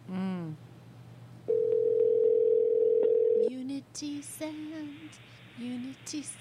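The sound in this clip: A telephone dial tone sounds as a call is placed, holding one steady, even tone for about two seconds before voices take over.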